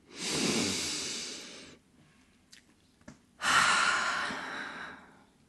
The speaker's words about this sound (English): let's all just take a deep breath together and arrive here in openness to receiving what we are looking for.